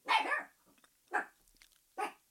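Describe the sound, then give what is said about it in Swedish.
A small dog barks three short, sharp times with pauses in between; the barks are fairly quiet and there is little else in the background. “det är min lilla hund Milton som vill vara med i sommarpratet.”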